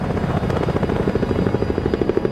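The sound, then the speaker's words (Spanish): A helicopter climbing into fog, its rotor giving a loud, steady thrum with rapid, regular blade pulses throughout. “El helicóptero sube internándose en la niebla.”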